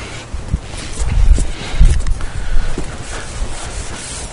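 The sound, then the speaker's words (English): A marker scrawls on a whiteboard in a series of quick rubbing strokes, some firmer in the middle, with no talk over them. “Gosh, when I write on the whiteboard, it's probably more of a hindrance than it's a help, huh? It's kind of sloppy.”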